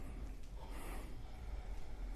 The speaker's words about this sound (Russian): Дышим, молодцы. Видите, сразу вот большая часть правильно дышит уджай.